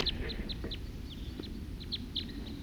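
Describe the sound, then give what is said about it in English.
Wild birds call in a rapid string of short, high-pitched chirps, repeated many times at an uneven pace over a steady, hissy background noise. “Wild birds.”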